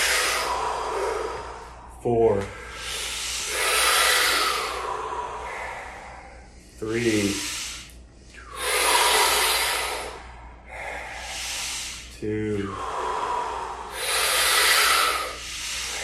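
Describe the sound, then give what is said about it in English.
Deep breaths during a guided breathing exercise: three cycles of long, loud, airy inhales and exhales, each beginning with a sharp, gasping intake of air. “We're going to do 5 more breaths, guys.”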